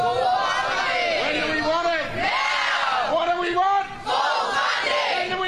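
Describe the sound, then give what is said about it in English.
Striking teachers and other staff from Victorian public schools chant and shout together at a protest, a loud, continuous crowd roar that rises and falls in bursts. “That, of course, is the sound of disgruntled teachers and other staff at Victorian public schools. They have been striking today, taking action to try and get a better deal from the Victorian government,”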